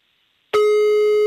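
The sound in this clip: A telephone line tone sounds while a call is being dialed. It is a loud, steady, unbroken tone that begins abruptly after about half a second of silence.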